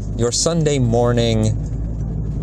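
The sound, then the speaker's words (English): Steady low rumble of a car being driven, heard from inside the cabin, continuous beneath a person talking throughout. “I'm driving today.”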